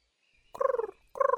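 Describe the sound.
Two short cooing calls from a dove, soft and mid-pitched, each a rapid rippling run of pulses, separated by a brief pause with nothing else around them.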